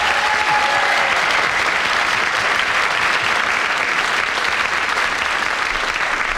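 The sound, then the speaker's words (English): Sustained audience applause rings out for the winner at the end of a comedy panel game: steady, dense clapping that holds at an even loudness for the full length, with no voices over it. “Well, a well-deserved win, and obviously, from my audience reaction, a very popular win.”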